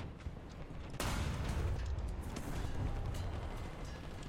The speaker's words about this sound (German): Ich habe daneben geschossen.